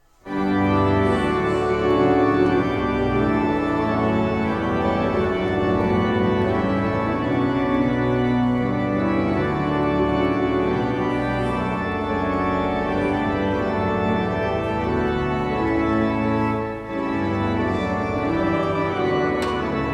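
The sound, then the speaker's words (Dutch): A Flentrop pipe organ from the Netherlands plays during a service in a Catholic church, with full, sustained chords and rich layered pipes holding loud and steady throughout. “Een Flentrop orgel, om precies te zijn. En ik heb dus een stiekem opname gemaakt en die klinkt zo.”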